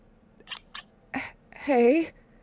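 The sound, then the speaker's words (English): Scissors cut off a bra with two short, sharp snips and then a heavier cut, followed by a brief voiced gasp. “Hey, that was my bra you just cut off.”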